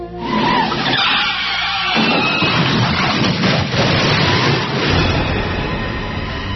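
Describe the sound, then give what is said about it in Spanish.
Tires screech as a car skids before a head-on crash: a harsh, loud, continuous rush of noise that fills the whole clip, with no distinct impact. “Solo recuerdo un coche chocando frontalmente.”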